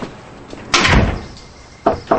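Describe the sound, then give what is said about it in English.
Door being opened: a soft lead-in, then one broad bumping burst, followed after a pause by two brief, sharp knocks or clicks. “Thomas opens Stephanie's door.”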